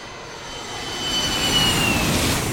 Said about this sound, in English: New York City's JFK Airport, Terminal 7. Good afternoon, ladies and gentlemen. On behalf of our flight crew, we'd like to welcome you aboard ANA Flight 324, nonstop from New York's JFK Airport to Narita Airport